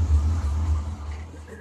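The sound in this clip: A vehicle engine runs with a steady, deep low rumble that holds fairly even throughout, dipping slightly in loudness toward the end.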